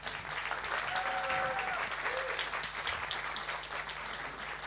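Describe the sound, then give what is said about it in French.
Loud, steady audience applause fills the whole stretch, called for a young man invited forward at a French-speaking religious gathering, dense clapping with no break. “Acclamation pour Habib.”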